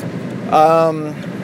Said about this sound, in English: Sorry, I'm driving in freezing rain right now.